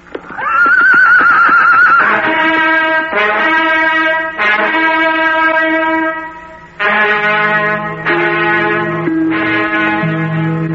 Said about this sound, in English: So the two friends gallop off through the forest to end the eventful day.